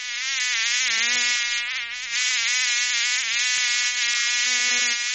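Mosquitoes and flies buzzing in a loud, steady, high whine with a rich harmonic edge that wavers slightly in pitch throughout, with no talk.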